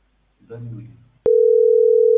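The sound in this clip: A telephone call tone follows a brief spoken phrase: a loud, steady, unbroken electronic tone that sets in abruptly and holds without a break to the end.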